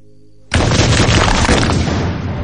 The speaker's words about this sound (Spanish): En la mina, varias explosiones abren una zanja.